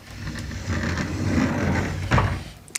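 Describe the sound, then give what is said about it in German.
A sliding door of a white, half-height wardrobe being opened, a low rolling rumble that builds and then eases, followed by a short knock and a brief click at the end. “Machst du bitte mal den Schrank auf?”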